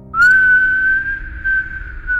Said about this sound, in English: it's just like that really like shrill whistle, and then it's just kind of like, it's like a warbling bird whistle.